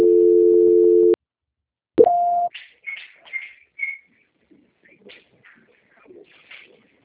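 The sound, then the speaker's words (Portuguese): A steady, low telephone tone is heard during a call transfer to a busy extension. It holds for about a second and cuts off, then after a pause a short, higher beep sounds, followed by faint scattered chirps and rustling. “um momentinho, Sandra, que o ramal está ocupado. Tá bom. Transferência.”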